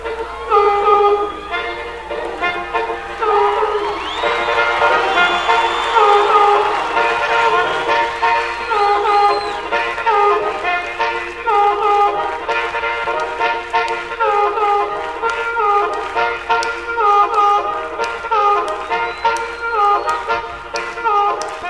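A blues band's song intro has a chugging, steady rhythm that suggests a moving train, built from repeated short pulses over sustained tones. It stays loud and even for about twenty seconds, with no talking.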